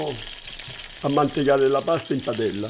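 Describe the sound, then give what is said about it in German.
Onions and garlic sizzle in oil in a pan while bergamot zest is grated in, a steady hissing fry that continues under a voice speaking through the second half. “In der Pfanne brät er Zwiebeln und Knoblauch in Öl an, reibt die Schale einer Bergamotte hinein, löscht mit dem Fruchtsaft und ein wenig Nudelwasser ab, gibt Muscheln dazu.”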